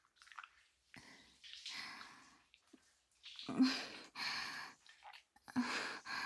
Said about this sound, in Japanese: 両手使って綺麗に洗ってて。ゴシゴシしていいよ。